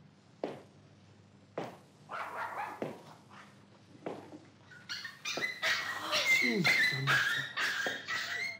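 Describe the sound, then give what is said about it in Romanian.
Two puppies whimpering and yipping, with a few separate short yelps at first, then a longer stretch of high, wavering whines and cries. “Soția mea mi-a dăruit 2 căței? Nu se poate! 2 căței!”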